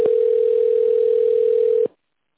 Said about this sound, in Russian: Для соединения с оператором оставайтесь на линии. Выполняется соединение с оператором.